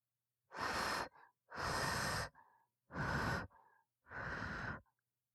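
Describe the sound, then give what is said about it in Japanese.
Four breathy puffs of air blown across hot food to cool it before it is fed by spoon. Each is a soft, broad whoosh lasting about a second, with short pauses and a faint trailing breath after each. “それではまた、熱くないように。ふうふうして差し上げますね。”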